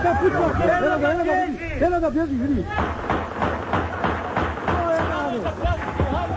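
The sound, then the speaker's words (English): Chaotic crowd noise as a peace march across a bridge in Sarajevo turns violent: loud, wavering shouts and screams, then many sharp bangs and thuds cutting through the continuous din of voices. “This is the sound of the chaos when a last desperate peace march across this bridge turned into a bloodbath.”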